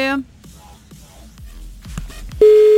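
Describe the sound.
Telephone line as a call is placed: a voice breaks off, faint clicks follow, then a steady, loud ringing tone starts near the end.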